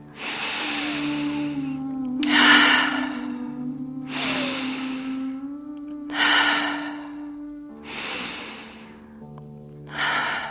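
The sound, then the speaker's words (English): Three deep cleansing breaths at the close of a guided healing meditation. Each is a long hissing inhale followed by a slower, airy exhale, evenly spaced over a steady, sustained low tone. “3 breaths in, cleansing breaths.”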